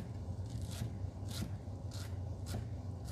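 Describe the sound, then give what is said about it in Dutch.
A knife chops herbs that have had their thick stems removed and been folded into a bundle, with one hand pressed flat on top of the blade. It makes a few rhythmic rasping scrapes over a steady low background noise. “En dan hak ik het terwijl ik mijn linkerhand plat met de handballen bovenop het mes heb.”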